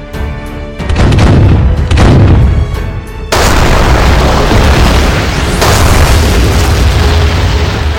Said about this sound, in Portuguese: O que foi avistado com desembarque da artilharia que entrou em ação contra as defesas alemãs.